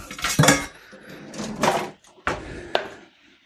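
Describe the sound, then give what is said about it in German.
Metallic clatter of a large cooking pot being pulled out of a kitchen cupboard while preparing pasta alla puttanesca: a few clanks and knocks of metal, ending with a sharp, bright hit. “Und dann nehme ich hier mal einen gro großen Topf.”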